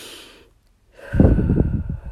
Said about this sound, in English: just take a few breaths. Just breathe that out.